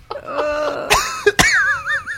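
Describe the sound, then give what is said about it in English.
A few dry, rasping coughs, like coughing dust, come in sharp bursts with strained, wheezy throat sounds between them. “It's like coughing dust. It's like a dry heave. There's still some retching involved.”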